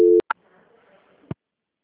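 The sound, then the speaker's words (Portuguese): Telephone line tones while a call is being transferred: a short steady tone cuts off into a click, followed by a faint hum and a second low click before silence. “Só um instante que eu estou transferindo para o controle de qualidade, tá? Peraí. transferência.”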